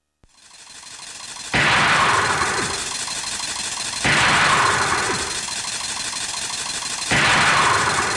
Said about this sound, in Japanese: 店内にて原因不明の爆発が発生しています。